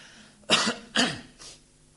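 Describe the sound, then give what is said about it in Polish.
Harsh throat clearing by a man in a sermon, three rasping bursts, the first two strong and close together, the third shorter and fainter, with no talk over them. “Hiskiasz, no muszę chyba odchrząknąć mocniej”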